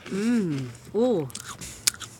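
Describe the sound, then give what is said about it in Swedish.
A crisp bite into a cracker topped with a strong-tasting spread. A brief crunch with one sharp crack follows a short stretch of talk. “jag tror att om jag får ett kex under, jag ska inte äta nu när de lyssnar. Ska jag göra det? Ja, gör det. Berätta. Där tar han ett bett.”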